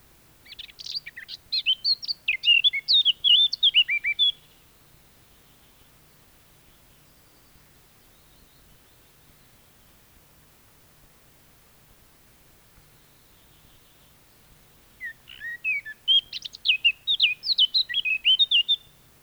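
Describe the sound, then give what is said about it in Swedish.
Blackcap (Sylvia atricapilla) song: two bright, rapid warbling phrases of several seconds each, high-pitched and clear, separated by a long silent gap with only faint hiss beneath. “nu följer svarthetta”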